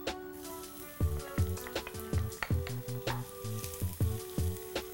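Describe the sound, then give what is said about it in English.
Garlic cloves frying in olive oil in a skillet over medium-low heat give a steady crackling sizzle with scattered sharp pops. No one talks. “put a skillet on medium-low and add 2 to 3 tablespoons of olive oil. 2, 3. I'm going to add 2 cloves of garlic.”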